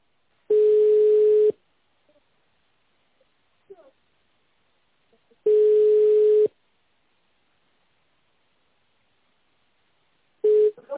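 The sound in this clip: Telephone line tones while a call is being connected: three steady, single-pitched tones about a second long, spaced about five seconds apart with near silence and faint clicks between them, the last one cut short.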